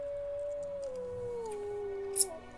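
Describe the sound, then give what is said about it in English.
A wolf howls in one long, steady tone that slowly drifts lower over about two seconds. A brief sharp high tick sounds near the end. “This is not a normal wolf. This isn't normal wolf activity at all.”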